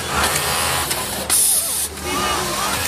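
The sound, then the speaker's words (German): An industrial sewing machine runs with a steady mechanical whir and hum. A brief, loud hissing burst cuts in partway through, then the machine's running noise carries on. “Und so klingt so eine Nähmaschine. Ich dachte immer, die klingen ganz anders. Also bei meiner Oma klang das immer ganz, ganz anders. Aber solche Industrienähmaschinen klingen so.”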